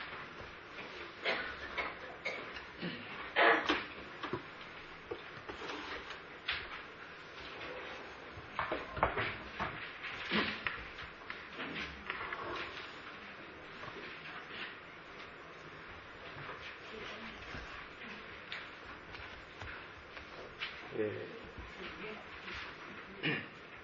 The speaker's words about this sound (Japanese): では窓を閉めていただきます。